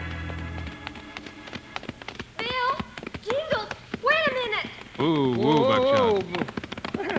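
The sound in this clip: Horses' hooves clop in a quick, uneven run of knocks as riders arrive, followed by voices talking over the movement.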